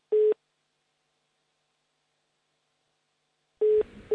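A telephone tone sounds after a call loses signal: short, steady mid-pitched beeps, one near the start and two close together at the end, separated by a long silence, with a low rumble under the final beeps.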